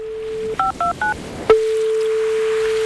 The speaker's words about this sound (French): Je vais l'appeler.